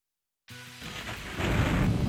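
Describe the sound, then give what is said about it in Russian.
Thunder and pouring rain in a children's musical fairy tale: a low rumbling roar breaks suddenly out of silence and swells louder toward the end. “Гремел гром, сверкала молния, дождь лил, как из ведра.”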